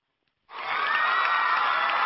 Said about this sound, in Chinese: 热烈的掌声再一次送给你。